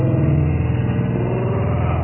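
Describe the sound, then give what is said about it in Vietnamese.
A motorbike engine runs steadily as its rider leaves for a show. It makes a loud, rough, low-pitched drone with a continuous rumbling texture and no breaks. “Đấy đấy, các bạn có nghe tiếng xe kickbox của Sena Chen không? Cô ấy là chuẩn bị đi biểu diễn ngày hôm nay đấy.”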